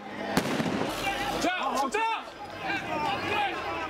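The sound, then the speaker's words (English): Police fire tear gas and smoke bombs at a street protest near a convenience store lot. One sharp, loud bang comes early, followed by constant crowd noise with raised voices and shouting throughout. “In this video, police are letting off smoke bombs, firing tear gas.”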